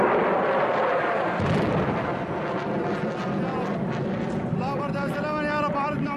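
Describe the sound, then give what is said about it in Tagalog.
Loud rumbling blasts from missiles striking a temporary field hospital in Idlib province, Syria, form a dense, sustained roar across the whole clip, with voices of people over it. “Yan ang tunog ng mga tumatamang missile sa pansamantalang ospital ng Medecins Sans Frontieres sa lalawigan ng Idlib sa Syria.”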